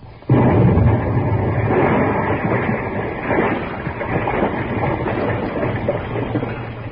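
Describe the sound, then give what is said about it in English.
An explosive blast set off to free someone wedged tight in a tub bursts in abruptly with a loud onset, then continues as a sustained, dense roaring rumble to the end. “Oh, yes, I will. I'm going to blast. Blast? Stand back.”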